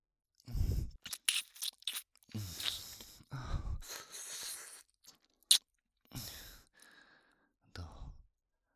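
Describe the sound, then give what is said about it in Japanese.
ASMR ear-licking mouth sounds: many close, wet smacks, slurps and clicks in irregular bursts, separated by soft breathy pauses and kept quiet throughout. “実際耳舐められるの初めてなんだ。”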